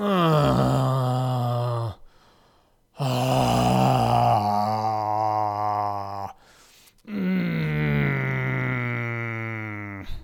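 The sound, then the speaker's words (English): A man moans and groans in three long, drawn-out voiced bursts separated by short pauses, each loud and sustained with a wavering, complaining tone. “and then immediately resumes his moans and groans.”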